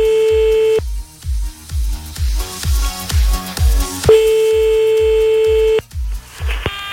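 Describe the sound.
Telephone dialing and line tones while calling a man back after a dropped call: a loud steady tone, a run of short keypad beeps, then the steady tone again, over a regular low thumping beat.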